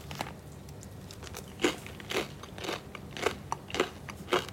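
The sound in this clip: Quiet crisp crunching as sourdough bread is bitten and chewed, about six soft crackling bursts at a fairly steady pace, with no talk.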